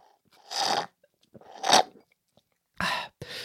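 Chewing on odd carrot pieces left at the bottom of a homemade smoothie: a few crunchy, moist bursts of mouth noise separated by short silences, with no talking.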